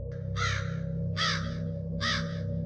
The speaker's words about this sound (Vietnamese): Tiếng quạ kêu quang quát trên đầu.